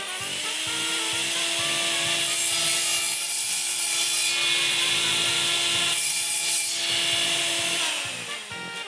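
Sustained sawing linked to a surgical procedure: a steady whining tone over a rough, rasping grind runs evenly for about eight seconds, then tapers off at the very end.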